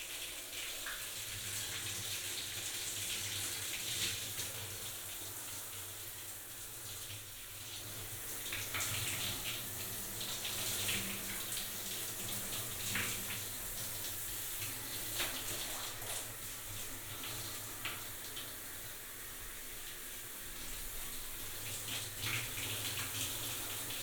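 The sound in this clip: Water runs steadily from a tap or shower to rinse a patient before a bath, an even, continuous hiss that holds at one level with no breaks.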